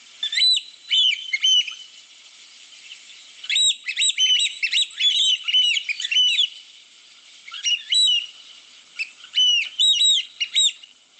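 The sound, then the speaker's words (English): Shrill, piping calls of an African black oystercatcher arrive in several rapid, insistent bouts of high notes, loud and clear with short silent gaps between bursts and no voices. “That's the sound of the African, the African black oyster catcher.”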